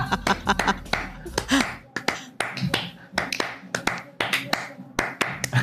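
Hands clapping a Spanish-style rhythm: many sharp, crisp claps in a quick, syncopated pattern with short accented bursts, loud and continuous throughout.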